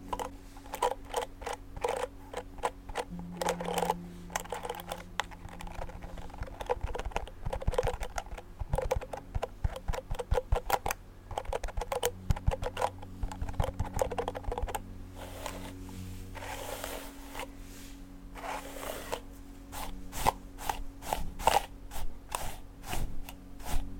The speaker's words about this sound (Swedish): bara börja med att borsta ditt hår och så massera lite grann och sådär. Då kan du börja med att släppa ut ditt hår. så bara borstar jag igenom det.